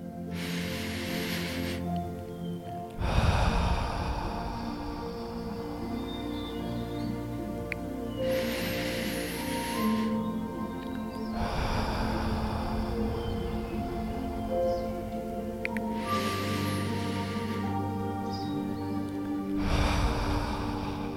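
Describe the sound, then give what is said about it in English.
Slow, deep breathing during a guided meditation, in through the nose and out through the mouth. Several long, soft breath rushes rise and fade in turn over gentle sustained musical tones. “I want you to take three deep breaths in through the nose and out through”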